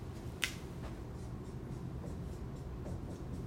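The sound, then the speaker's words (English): A marker draws blue lines on a board, making a faint scratchy rubbing with one sharp stroke near the start and a few softer strokes after. “So on the board, I'm drawing in this green box below the 40 things, blue lines.”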